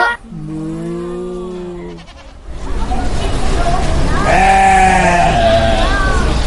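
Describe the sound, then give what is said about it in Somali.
Sheep bleat in two long, wavering, nasal calls. The first comes alone, and the second rises louder over a rougher background noise. “in English they are called sheep Soomaali ahaanna waxay noqonaysaa ido”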